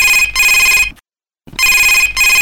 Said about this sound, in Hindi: तो फिर आइए देखते हैं कि हमें आज पहला फोन कॉल किसने किया है।